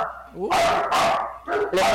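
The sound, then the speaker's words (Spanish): Dogs barking: a few loud, sharp barks in quick bursts, with a short whining note just before the first one. “Esto por lo menos son perritos. El del mediodía es un gallo que me lo quiero almorzar.”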